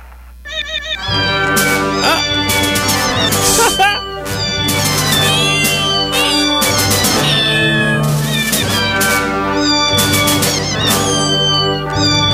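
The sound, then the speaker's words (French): A cat's meows are set along to a film theme tune, forming a loud, continuous melodic run of pitched meow notes with musical backing throughout. “Un chat qui chante le thème de Star Wars.”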